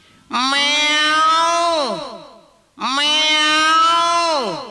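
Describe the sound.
Two drawn-out meows from a human voice imitating a cat, each a loud, harmonic wail that holds steady and then drops in pitch at the end, separated by a brief pause.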